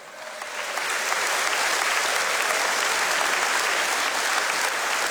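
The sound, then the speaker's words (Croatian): Audience applause at the Melodije Istre i Kvarnera music festival swells up during the first second, then holds as dense, sustained clapping from a large crowd. “Sigurna sam da su svi naši izvođači, naš orkestar, naši prateći vokali zaslužili još jedan vaš pljesak.”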